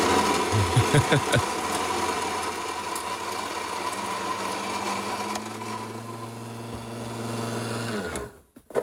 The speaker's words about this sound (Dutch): Ik heb mijn boontje al afgewogen. Ik heb 15 gram bonen. Die ga ik nu malen.